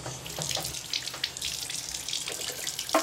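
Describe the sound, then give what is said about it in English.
Running water pours from a sink tap while someone rinses and spits, a steady hissing rush with a few brief splashy bursts. No voices are heard. “Okay, let's rinse and spit, all right? Come here.”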